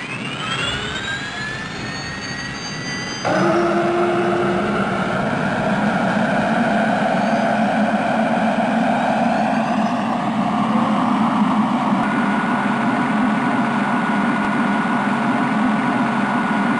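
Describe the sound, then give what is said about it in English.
Aircraft engines start up with a loud, steady jet roar and whining tones. The sound grows louder after a few seconds and then holds steady throughout. “All systems okay. Activate engine startup procedure.”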